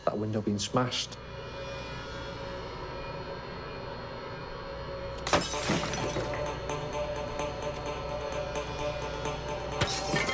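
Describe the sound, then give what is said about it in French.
A glass window pane is smashed: a brief crack near the start, then a much bigger shattering crash midway, followed by continuous tinkling and crunching of falling glass to the end. “Il savait que Mabel Lishan ne l'entendrait probablement pas casser le carreau.”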